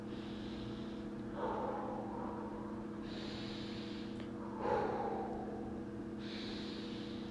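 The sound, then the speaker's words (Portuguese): Slow, deep breathing by a person trying to relax, with soft breathy inhales alternating with heavier, rushing exhales over a few breath cycles. The breaths are faint against a steady low hum, and nobody speaks. “Ai, eu acho que eu vou respirar três vezes para relaxar.”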